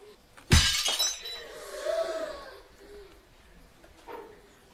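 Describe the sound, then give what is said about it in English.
A plate smashed and shattering: one sharp, loud crash, then a short fading spill of clattering fragments, after which the sound drops away to quiet. “She's got the plate! I'm going to smash it on his head!”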